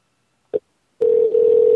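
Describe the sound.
A telephone call rings unanswered: a brief click, a short gap, then a steady ringing tone that continues to the end.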